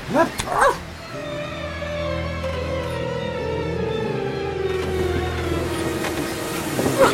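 Milou (Snowy), Tintin's dog, barks and yips: a couple of sharp yelps open, then long, high, wavering whimpering tones carry on steadily, and another short yelp comes at the end, with no talk.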